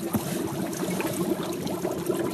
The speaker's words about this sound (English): That's the sound of the water in this little cauldron.